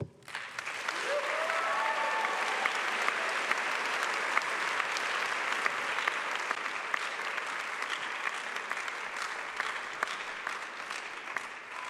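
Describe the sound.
A college audience at Covenant College applauds to welcome a guest speaker, the crowd's clapping rising quickly and holding as a long, even, full roar before easing slightly near the end.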